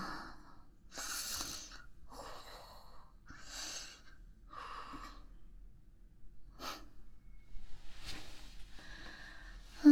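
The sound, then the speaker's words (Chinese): A voice makes an exaggerated imitation of snoring: an irregular series of faint, breathy snorts and rasping inhales, with a louder snort at the very end. “你可能没打呼噜，我学的有点夸张成分”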